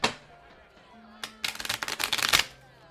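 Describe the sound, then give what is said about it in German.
Playing cards are sorted out and flipped over for a three-card guessing game: a single snap, then a rapid burst of crisp flicking and riffling, with a brief voice near the start. “Ich äh, sortiere drei Karten raus, hm. drehe sie rum, zwei Jungs und eine Dame.”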